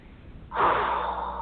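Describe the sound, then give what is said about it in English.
A single deep breath taken during a guided breathing exercise, a soft, airy rush of air that starts abruptly and holds steady to the end, heard alone with no talk. “One more deep breath.”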